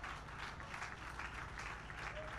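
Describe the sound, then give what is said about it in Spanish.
Praise applause from a church audience during worship, continuous clapping from many people, fairly soft and even throughout with small swells. “Fuerte ese aplauso de alabanza para el Señor. Fuerte, fuerte.”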